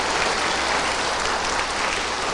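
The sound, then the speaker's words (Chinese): An audience applauds warmly to welcome a master invited to give a teaching. Dense, steady clapping from many hands holds at an even level throughout, with no break. “现在我们以热烈的掌声恭请上清下海师父为我们开示。”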